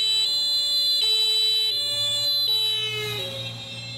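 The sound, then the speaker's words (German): An approaching emergency vehicle's siren sounds loud and alone, stepping back and forth between a high and a lower tone in a steady two-tone pattern, then settling on a lower pitch near the end. “Wenn ein Einsatzwagen auf dich zugefahren kommt, hört sich das Signal meist hoch an.”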